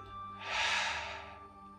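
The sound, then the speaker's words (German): A slow, soft breath during a guided meditation on forgiveness and healing: one airy whoosh that swells and then fades, quiet and alone. “Einatmen, ausatmen.”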